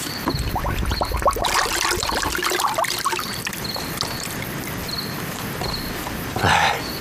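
Wine is poured to fill a gourd in a steady, continuous trickle that runs for several seconds at an even level.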